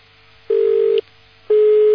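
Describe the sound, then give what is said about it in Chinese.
A telephone line beeps with two steady, mid-pitched tones, each lasting about half a second, separated by a short gap of faint hum. “我不能让你老嘟嘟下去的，我再来三下，没有我就挂电话了啊”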